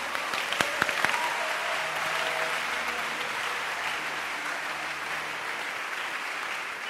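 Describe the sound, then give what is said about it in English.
A church audience claps together in steady, even applause that continues without a break for about seven seconds at a fairly soft level. “Clap your hands.”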